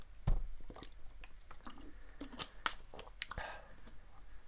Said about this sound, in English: excuse me one second here because I kind of want to get a drink before I start going into this.